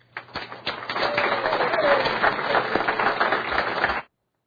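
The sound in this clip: Applause fills a legislative chamber as visitors are introduced, a dense, steady clatter of many hands that holds for about four seconds and then cuts off abruptly.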